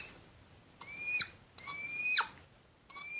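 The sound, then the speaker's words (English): Hedgehogs mating during mating season make thin, high squealing whistles in three bursts, the first two ending in quick downward-sliding squeaks and the third cut off, over a faint hiss. “That was the sound of a hedgehog, or in fact the sound of hedgehogs getting it on during mating season”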